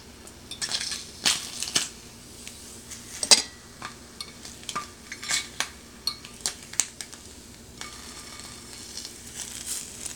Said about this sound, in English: So you can hear it sizzling away. All right, so it's popping away on in the pan